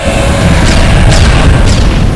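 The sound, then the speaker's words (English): Explosion sound effect of a dragon's fire breath striking giant fighting robots: a loud, continuous roaring rumble with a few sharper bursts rising out of it. “The Red Dragon appears in the sky and aims its fire breath down into the Shogun Zords.”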